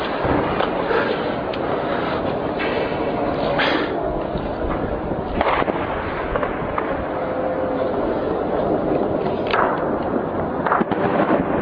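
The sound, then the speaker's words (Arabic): Heavy shelling of the Baba Amr and Al-Inshaat districts on 6 February 2012: a few sharp blasts break through a constant loud, rumbling background. “قصف عنيف على حي بابا عمرو حي الإنشاءات 6/2/2012.”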